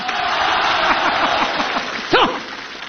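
Audience applause at a comedy show, a dense, steady clatter of clapping hands that swells briefly near the end.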